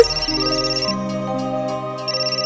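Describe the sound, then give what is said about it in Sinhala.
An electronic phone ringtone for an incoming call plays a steady, melodic pattern of bright synthesized tones, looping clearly with no voices. “මදේම call එකක් මට විනාඩියක් දෙන්න පුතේ.”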